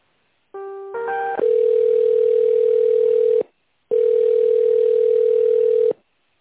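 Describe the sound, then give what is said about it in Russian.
A telephone line tone plays while a call is transferred to an extension. Brief layered beeps lead into a loud, steady single tone, then a short gap and a second long steady tone. “Секундочку, вас сейчас переключу. Добавочный 114”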